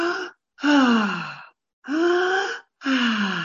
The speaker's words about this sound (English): taking deep breaths, inhaling and exhaling like this.